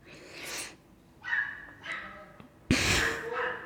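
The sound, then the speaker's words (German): A dog yelping outside, apparently after being stepped on: a few sharp, high, breathy cries in separate bursts, the last one loudest and longest, with faint background noise between them. “Was ist da jemand auf einen Hund getreten?”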